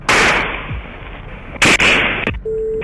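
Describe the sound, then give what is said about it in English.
Gunshots fired near a house during an active shooting: sharp, loud cracks, one at the start and a quick pair later, followed by a steady electronic tone near the end. “We have shots fired out here.”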